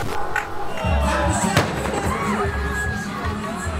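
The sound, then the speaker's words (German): A bomb explosion at a Kurdish rally square cuts through a dense roar of crowd voices and shouts as one sharp, broad crack. Low rumbling noise continues underneath. “Eine gewaltige Explosion erschüttert den Versammlungsplatz. Knapp 50 Meter von uns entfernt steigt eine schwarze Rauchwolke hoch. Die Menschen sind konsterniert, viele schockiert. 2 Bomben sind hochgegangen.”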